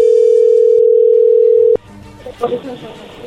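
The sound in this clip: A telephone dial tone as a call is dialled, a loud steady hum lasting under two seconds that cuts off with a click, followed by quieter, uneven line noise.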